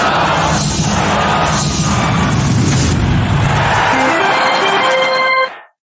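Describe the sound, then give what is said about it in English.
Old intro jingle of a Pittsburgh Pirates fan show: loud, dense music with heavy booming hits throughout and a run of stepped tones climbing near the end, then a sudden cutoff. “But for right now, we're going to go ahead and move forward with it. And it's important that we play the old intro.”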